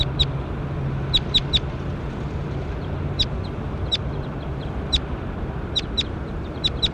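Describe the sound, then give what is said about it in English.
A bird calls with sharp, high chirps repeated in quick clusters, with short gaps between groups, over a steady, dense background hiss and rumble. “Going to bird 21. That was bird 21. Stop. Oh, there he is again.”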